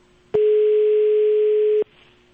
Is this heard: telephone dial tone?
yes